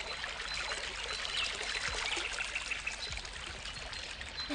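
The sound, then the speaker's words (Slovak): A small brook of clean water flows with a faint, continuous trickling babble. The gentle, steady wash of water runs without a break throughout. “Potôčik. Aspoň sa čistej vody napijem.”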